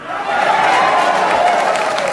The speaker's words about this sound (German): Diese Worte von FIFA-Chef Sepp Blatter sorgten heute vor 20 Jahren, am 6. Juli 2000, für kollektiven Jubel in Deutschland.